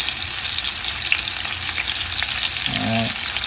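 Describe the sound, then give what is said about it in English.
Bacon and vegetables, including mushrooms and red onions, sizzle loudly in a pan alongside turkey burgers. The frying hiss is steady and continuous throughout, with no talk. “I have turkey burgers in there. So I'm gonna throw that bacon in there. And then throw those vegetables in there.”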